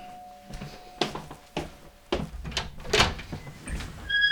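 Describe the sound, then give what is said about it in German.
A squeaky door being moved gives several sharp knocks and bumps mixed with brief creaks. Thin, high squeals come near the end, all at a moderate level. “Boah, das quietscht ja wieder, das ist ja die Hölle.”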